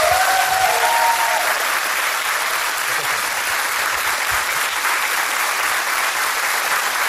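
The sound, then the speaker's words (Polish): Audience applause for singers at a live concert, dense, loud and continuous from start to finish without pauses. “wielkie brawa”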